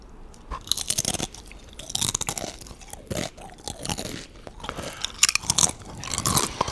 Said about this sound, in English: God, I fucking love Doritos.